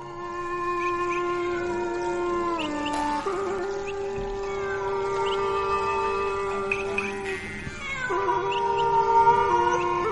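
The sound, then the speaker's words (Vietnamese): A cat meowing at night in a mountain forest: a few long, drawn-out, wavering yowls with a strongly tonal, mid-pitched quality, sounding alone and growing slightly louder toward the end. “tiếng con mèo vẫn cứ kêu xa dần xa dần, lẫn vào trong đêm tối của núi rừng.”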